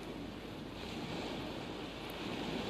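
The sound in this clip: Ocean surf washing ashore at Moffat's Beach: a steady, broad rushing roar of breaking waves with wind buffeting the microphone. It stays continuous and fairly faint, with no voices.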